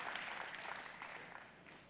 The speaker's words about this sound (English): Give God a big clap. Give him praise.